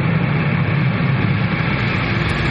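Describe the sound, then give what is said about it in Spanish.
An airplane passing low over a truck, a loud, steady, low-pitched engine roar that fills the whole clip without a break. “En el presente un avión pasa sobre el camión.”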